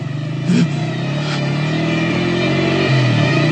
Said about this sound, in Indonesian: Buru-buru aku menancap gas motorku.